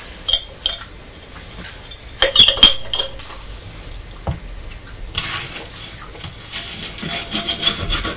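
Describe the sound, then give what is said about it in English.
A knife scraping the bottom of a glass marmalade jar gives a scratchy, rubbing texture in uneven strokes, with a few sharper clicks partway through. The sound is fairly steady and quiet, with no voices. “Trying to scrape the bottom of the jar so that you've got enough on there that you can taste it.”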